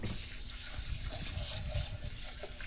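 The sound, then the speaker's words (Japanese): Rice being washed in water by hand, a faint, continuous splashing and trickling of water with soft swishing and no voices. “お米を洗います。”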